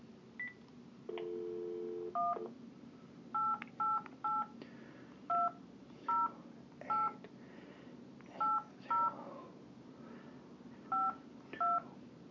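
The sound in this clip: A touch-tone phone dialing an 11-digit toll-free number: a short steady dial tone, then eleven separate beeps at uneven intervals, with quiet gaps between some of the digits.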